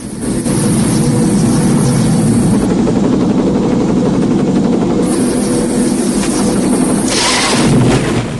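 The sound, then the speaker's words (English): The rotors of a stricken gunship helicopter, down at a river with its pilot slumped at the controls, keep turning in a loud, continuous whirring drone. The drone holds steady throughout, with no voices. “Rambo lies out cold at the stricken chopper's controls. The rotors are still going.”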